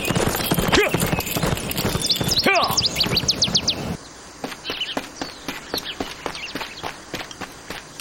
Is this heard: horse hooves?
yes